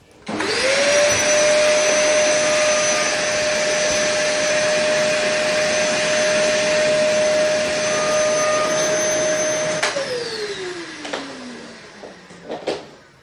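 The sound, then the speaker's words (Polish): A vacuum cleaner runs in a radio studio, its loud, steady motor whine holding one pitch before winding down with a falling tone, followed by a few sharp knocks. “Niestety trzeba przerwać odkurzanie. Serwis sprzątający w studiu.”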